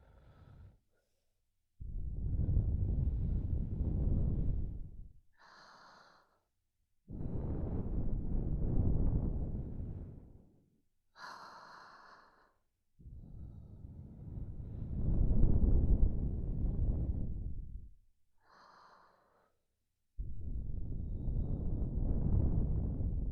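Breath blown slowly and directly onto a microphone, making several long, low, rumbling wind-like gusts of a few seconds each. Brief, fainter breaths fall between them.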